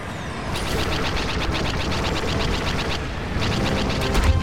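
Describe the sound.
Rapid video game gunfire rattles on without pause, dense bursts of automatic shots filling the whole stretch at a steady loud level and swelling slightly near the end.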